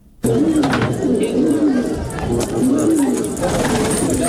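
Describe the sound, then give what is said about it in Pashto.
Pigeons cooing at a pigeon market in Kunduz province, Afghanistan, where people breed and sell the birds. Many low, wavering coos repeat throughout against a dense, noisy background. “په کندوز ولایت کې له ډیرو کلونو را په دې خوا یو شمېر کسان کوترې روزي”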